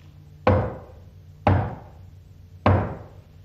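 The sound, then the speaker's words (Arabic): Three slow, heavy knocks on a door, each a sharp woody thud that rings briefly and fades, spaced roughly a second apart with quiet in between. “وفجأة سمعوا طرقا على الباب.”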